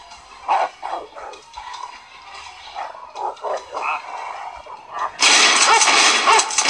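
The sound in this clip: Dog attacking in a video game, with a run of short snarls and barks rising and falling in loudness, then a sudden loud, harsh burst of noise that carries to the end.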